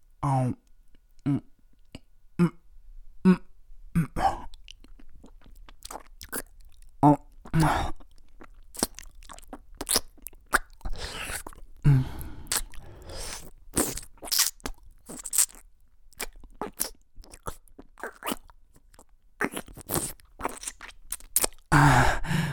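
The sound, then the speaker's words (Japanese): Wet mouth sounds of eating soft-serve ice cream: many irregular smacks, clicks and slurps at moderate loudness, with brief pauses between them and some longer, smeared wet bursts. “まずは、口の中にソフトクリームを入れて、”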